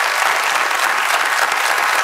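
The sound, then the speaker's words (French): Audience applauding a newly introduced director, a loud, dense wash of clapping that stays steady from start to finish. “On l'applaudit.”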